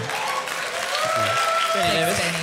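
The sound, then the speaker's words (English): A round of applause from a live audience after a crossword-clue quip. The clapping is steady and dense throughout, with voices talking over it. “No other room would that get a round of applause.”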